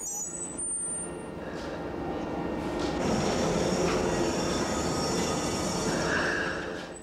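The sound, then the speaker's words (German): Light rail train braking to a stop as it enters a station: high metallic wheel squeals over a broad rolling rumble that swells through the middle, then fades toward the end. “Beim Einfahren in einen Bahnhof bremst die Stadtbahn nun bis zum Stillstand ab.”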